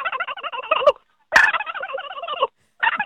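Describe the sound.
A man imitates a turkey gobbling with his voice, giving three loud bursts of rapid, warbling gobbles separated by short silences, with a sharp click just before the second burst.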